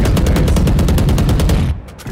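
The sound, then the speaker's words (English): Rapid automatic gunfire in the video game Valorant, a loud continuous burst of many quick shots that cuts off abruptly near the end, heard without talk. “One shot to the head while I'm moving.”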